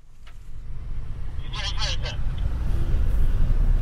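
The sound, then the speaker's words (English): A car drives through the streets of Sana'a, the capital of Yemen. Its low engine and road rumble form a steady drone that gradually grows louder, with brief voices audible over it. “I'm driving through the streets of Sana'a, the capital.”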